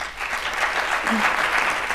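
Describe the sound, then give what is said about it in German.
Audience applause at a talk event: a steady, dense wash of clapping that stays fairly loud and even for about two seconds, with no voices over it. “Bitte einmal einen Applaus.”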